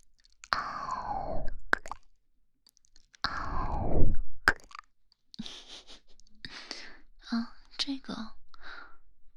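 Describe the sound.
Chewing freshly bought grapes: soft, wet clicks, squishes and crunchy bursts, preceded by a few breathy whispered sounds, all quiet and close with short silent gaps between.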